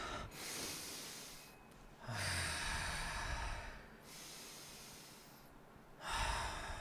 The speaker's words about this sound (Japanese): 3分間深呼吸がすごくおすすめしますちょっとやってみましょうか